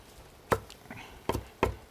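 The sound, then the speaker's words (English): A knife rough-chops fresh basil, striking a board in a few separate, crisp thuds with short pauses between them over a quiet background. “I'm just going to chop a little bit rough chop here.”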